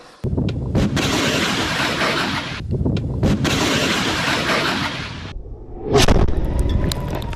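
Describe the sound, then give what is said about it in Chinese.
An anti-tank missile strikes an armoured target during a mobile firing drill. A loud, rushing roar with brief dips runs for several seconds and then drops away, followed by a sharp, blast-like burst near the end. “机动途中，反坦克导弹分队快速完成目标捕捉和火力分配，对敌方装甲目标进行精准打击。”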